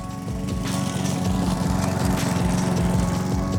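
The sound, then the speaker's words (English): A lawn mower engine runs continuously, a loud, steady mechanical drone with a fast rhythmic pulsing rumble underneath and a broad hiss on top, with no voices. “maybe you mowed your lawn.”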